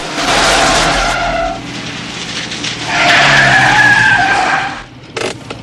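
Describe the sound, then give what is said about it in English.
Car tires screech as the car reverses fast down a street and swerves round a corner, giving two long squealing skids with a short pause between them, then a brief clunk as it stops. “He reverses straight down the street. He swerves round a corner into a side street and stops the car.”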